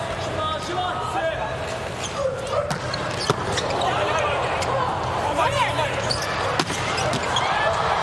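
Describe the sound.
A volleyball bounced before a serve in a match involving Japan's team, heard as a few sharp, hollow thuds over a constant wash of crowd noise.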